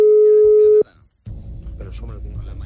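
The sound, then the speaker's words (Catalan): Telephone ringing tone on a live call placed to a wedding: one steady, mid-pitched tone that holds for under a second and cuts off abruptly, then after a brief silence people talk over a noisy line. “Trucada en directe al casament de l'Alberto Peinado. Jo, si fos l'Alberto, no l'agafaria. No agafaria la trucada.”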